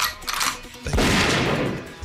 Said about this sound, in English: If you're ever going to play the gunshot.